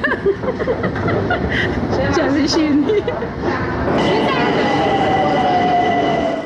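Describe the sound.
Steady, loud rumble inside a moving Tehran metro train, with a thin high whine emerging in the second half as voices talk over the noise.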